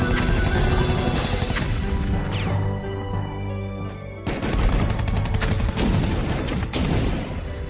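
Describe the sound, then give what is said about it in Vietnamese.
Anti-aircraft artillery guns firing at enemy aircraft: dense, loud rolling bursts of heavy gunfire and booming blasts that pound almost without pause, dip briefly, then resume just as heavily. “Đoàn đoàn đoàn, trận địa pháo của các anh bộ đội phát quả. Vậy là các anh bắt đầu bắn.”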